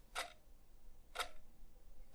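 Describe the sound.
Clock hand ticking with a short, dry, rigid tick; three faint, crisp clicks evenly spaced about a second apart against near silence.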